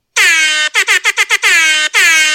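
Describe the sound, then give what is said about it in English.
A reggae air horn sound effect blares loud and brassy: a long sustained blast, then a rapid run of short stabs, then two more long held blasts. “wants more reggae air horn, please and thanks.”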